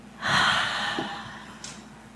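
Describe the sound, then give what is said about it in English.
One loud, drawn-out breath is released during a slow guided breathing exercise. It is a single breathy rush that starts strong and slowly fades, with no talk over it. “Slow in breath together. Exhale loudly.”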